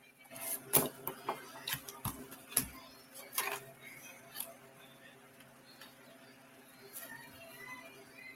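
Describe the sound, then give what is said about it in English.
Cards are pulled from a new deck of playing cards: a series of soft, crisp ticks and snaps in the first half, then quieter faint rustles as the handling settles. “I'm just gonna pull one out of the. This is a new deck. I've only used, well, I haven't ever used it yet, but I've been trying to break them in.”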